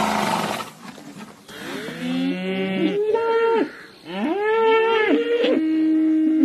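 Bulls mooing: several long, loud, drawn-out moos with wavering tone, some overlapping one another, with no talk.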